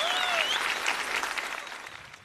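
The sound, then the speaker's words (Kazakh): Audience applause at a contest event: dense, steady clapping from a crowd, with a brief whistle near the start, holding at an even loudness before easing slightly at the end. “Қанекей, дуғыл шапалақтарыңызбен.”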